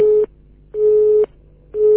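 A telephone busy tone after a dropped call: steady, mid-pitched beeps alternating evenly with silence, three in all, with the last one cut short.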